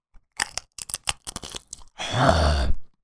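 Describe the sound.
Crisp crunching and chewing of a sour cream and onion snack close to a microphone: a rapid run of sharp crunches, then a longer rough, grinding burst.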